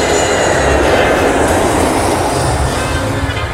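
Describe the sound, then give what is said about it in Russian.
Steady, loud roar of an airplane coming in to land in the night sky: a dense, even rumble with a broad hiss above it that holds constant throughout, with no voices. “В темном небе горят огни самолета, идущего на посадку.”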